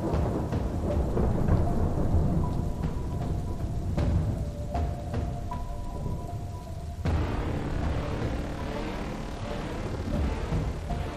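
Heavy rain hisses steadily through a typhoon thunderstorm, with deep rumbles of thunder rolling beneath it at a loud, even level throughout.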